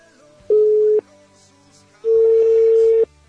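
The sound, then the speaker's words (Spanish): Telephone line tones during a call, two loud, steady mid-pitched beeps: a short tone, a pause, then a longer one, over a faint background. “Como sabrán, estamos llamando nuevamente a Valera. Esto vía toda línea telefónica.”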